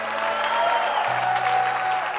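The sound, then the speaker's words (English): A church audience applauding, giving Jesus a big hand during a service: sustained, dense clapping at a steady, fairly loud level from start to finish. “Come on, give Jesus a great big hand.”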